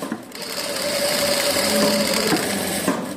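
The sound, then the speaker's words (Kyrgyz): A sewing machine stitches sports tracksuits in a women's prison workshop. It gives a steady, loud mechanical whir with a high whine, and near the end there are a couple of brief clicks and catches. “Биз барган учурда борбордогу 8 аял кыздардын кадимки спорттук костюмун тигип жатышкан экен.”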